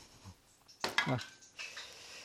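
Knife cutting seasoned fish into smaller pieces while cooking: a sharp burst of metallic clatter and clinks in the middle, followed by a softer, brushing scrape.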